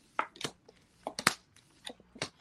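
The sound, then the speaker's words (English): Love angel oracle cards being handled: several soft, crisp rustles and papery flicks come in scattered bursts, quiet with no talk. “let me use for her. um, love angel oracle cards. Let's see what messages pop out for you.”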